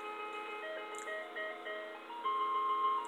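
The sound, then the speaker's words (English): An ice cream truck jingle plays a simple, tinkling melody of bright electronic notes, steady and moderately loud. A longer held tone comes near the end. “This how they doing the ice cream truck now?”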